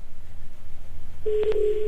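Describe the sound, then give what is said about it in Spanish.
A telephone number being dialed: after a stretch of low hiss, a steady electronic line tone sets in, with a couple of short keypress blips over it. No one speaks. “Recuerden que es el número a quien le vamos a marcar. ¿Ya está sonando?”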